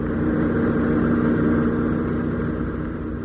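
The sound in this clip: Car driving fast on a trip out of London: a steady engine drone and road roar hold an even pitch throughout and ease off slightly near the end, with no voices.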